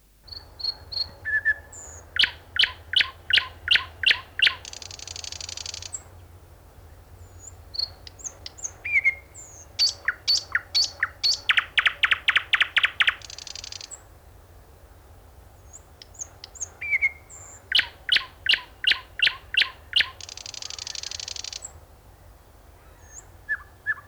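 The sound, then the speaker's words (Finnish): Thrush nightingale song: loud repeated phrases of rapid, evenly spaced clicking notes mixed with sharp whistles, separated by short pauses, over a faint low rumble. “Puhumattakaan teltassa nukkumisesta, jos satakieli sattuu naapuriksi. Laulaa kauniisti kuin satakieli, on kuuluisa sanonta.”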